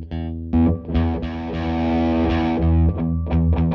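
Electric guitar played with a distortion tone through a pedal into an amp set at about 2: crunchy chords and notes, with a long sustained ringing chord in the middle, then a few shorter hits.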